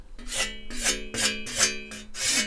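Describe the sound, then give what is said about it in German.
A fine, hard natural whetstone is stroked along a scythe blade in five rasping strokes at a steady rhythm, each bright scrape carrying a faint metallic ring from the blade. “Da streichen Sie jetzt dem Blatt entlang. Das hat man sicherlich schon mal gesehen, wie halt mit so einem Schleifstein.”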